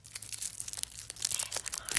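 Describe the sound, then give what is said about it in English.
A candy cane wrapper is ripped and crinkled: many sharp, irregular crackles and tearing bursts of plastic, bright and papery, following one another in quick, uneven succession. “I just ripped the wrapping off the candy cane wrapper.”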